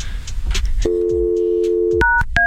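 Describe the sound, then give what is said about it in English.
A steady telephone dial tone hums for about a second, then a couple of short keypad beeps as a number is dialed on the phone. “Dial it. Call it. See if it's actually her.”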